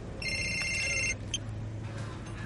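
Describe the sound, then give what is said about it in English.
A phone rings with a high, steady electronic trill lasting about a second over a low background hum, followed by a brief faint chirp. “Oh, that's my phone.”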